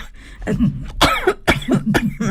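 Coughing and throat clearing from a person, a few harsh, raspy bursts separated by low, rough throat rumbles, loud and close with no speech.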